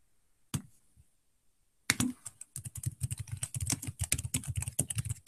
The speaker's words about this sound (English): Oh, I typed that wrong. I mistyped it.